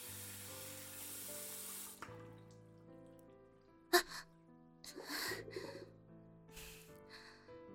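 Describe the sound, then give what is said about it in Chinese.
Tap water runs into a sink while someone rinses their mouth. A steady rush of running water cuts off, followed by a few brief, louder splashing bursts. “算了算了，我去漱漱口。”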